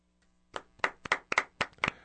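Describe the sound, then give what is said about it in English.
Polite golf-clap applause from a small group: sparse, light, uneven claps, about eight crisp hand strikes, starting after a brief quiet moment and fairly soft overall. “It was a golf clap. That was a golf clap. It was a golf clap. Very polite.”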